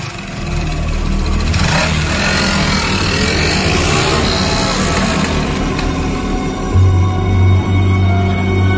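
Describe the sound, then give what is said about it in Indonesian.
Motorcycle engine during a ride, a continuous loud drone that shifts slightly in pitch, with no talk over it. “Akhirnya aku berangkat menggunakan sepeda motor untuk mengirimkan orderan ke apartemen itu.”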